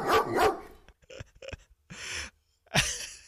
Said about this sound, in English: You give a good call, you get a woof.